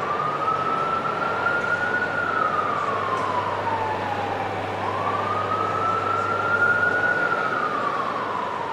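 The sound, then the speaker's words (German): A wailing emergency vehicle siren in a city sweeps up and down in two slow rise-and-fall cycles. Its loud, steady tone rides over a constant low hum, with no voices. “weil alles, was du hier kennst an Sirenen oder wie so eine Stadt klingt, ist da halt anders.”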